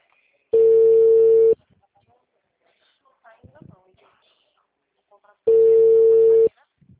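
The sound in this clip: A telephone line tone after a dropped call: two loud, steady one-second tones separated by a long silent gap, with faint murmuring in between.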